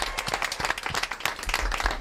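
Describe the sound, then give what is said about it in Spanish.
Loud, dense clapping from an audience of secondary-school students cheering at a school event, fast and continuous with irregular bursts throughout, no clear pauses. “Majadahonde, que también aplauden fortísimo”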